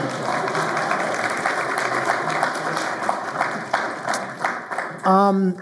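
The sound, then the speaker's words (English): A church audience cheering and applauding, a steady, dense wash of clapping and crowd noise that ends as a single voice begins to speak. “I don't know why they cheered for you and not your wives, but whatever.”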